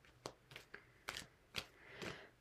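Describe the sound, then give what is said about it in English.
A card is drawn from a card deck: a few crisp, soft snaps and papery rustles at uneven intervals, faint and with no other sound. “And now let's pull one more card from this deck before we wrap up.”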